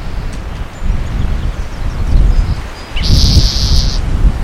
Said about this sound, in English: Really windy.